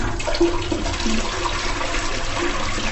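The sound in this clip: A toilet flushes with a steady, even rush of water running throughout, and no one talks.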